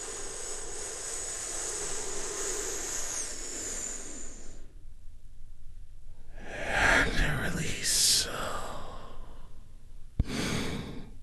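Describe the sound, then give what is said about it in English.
A big, deep breath: a long, hissing breath drawn in, then a pause and further breathy, sighing sounds, soft and airy, taken slowly and deliberately. “I want you to take a big, deep healing breath with me right now.”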